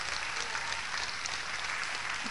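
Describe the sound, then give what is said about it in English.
Church audience clapping as a clap offering to the Lord during a service. The many hands make a bright, steady roar of applause that holds at an even, loud level. “I go ahead, give the Lord a clap offering.”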